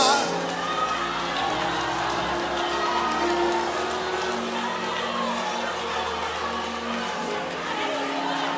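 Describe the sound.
Applause and cheering rise from a crowd in a hall, forming a dense, steady roar that lasts throughout at an even level, with voices mixed into the noise.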